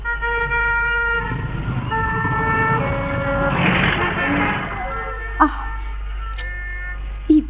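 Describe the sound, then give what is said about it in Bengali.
Heavy road traffic at a large, complicated city crossing: sustained siren-like horn tones ride over a steady low engine rumble, and two short, sharp toots stand out near the end. “এত গাড়ি যাওয়া যাচ্ছে না তো। তারা এখনো রাস্তাটার এপারে, মস্ত জটিল ক্রসিং এর অগুন্তি গাড়ি মানুষ আর শব্দের”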